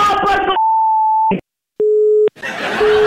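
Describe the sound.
A telephone busy tone sounds after a caller hangs up during a radio call-in quiz: two steady electronic beeps, the first higher than the second, with a short silence between them and talk before and after.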